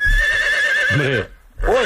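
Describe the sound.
A horse neighs in a loud, high, quavering whinny that wavers throughout, breaks off briefly, then returns in a short second burst.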